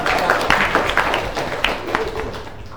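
Students clapping in a classroom during a business administration lecture: a loud burst of many overlapping claps, fairly steady throughout and easing slightly at the end.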